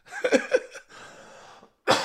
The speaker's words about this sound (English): I'm so sorry about coughing in your ear.